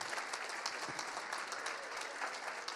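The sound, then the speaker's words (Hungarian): Faint, continuous applause from a church audience in Budapest honours the praise team after worship. It is a soft, even patter of clapping throughout. “És köszönjük, úgyhogy egy tapsot szeretnék igen kérni a”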